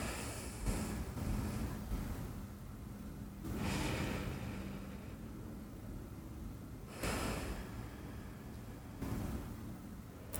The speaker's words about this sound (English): Take a few deep breaths, using only your nose, in and out.